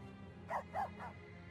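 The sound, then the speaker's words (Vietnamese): Three quick barks from a dog, evenly spaced and fairly faint over a low steady hum, with nothing else happening. “Vừa đúng lúc đó thì có tiếng chó sủa từ đâu vang lên.”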